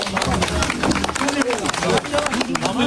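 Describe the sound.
Applause and scattered clapping from a crowd as a small boy is pulled out of a well, sharp hand claps mixed with overlapping voices and calls.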